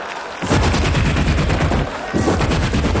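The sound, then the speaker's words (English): A voice imitates .50 caliber machine guns mounted on the front of a car. It makes a loud, continuous rattle of rapid bursts with a brief dip before the firing resumes. “Don't you wish sometimes instead of having those cute little lights in the front of your car, you had 50 caliber machine guns mounted up there?”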